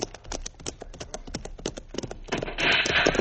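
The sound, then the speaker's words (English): Horses being ridden off, their hooves clip-clopping in a quick, steady rhythm that grows louder toward the end. “Pancho and I will ride up as close to that entrance as we can get. Mm-hmm. It may be that they have posted no guard. Come on, Diablo, get up. Come on, Logo, come now.”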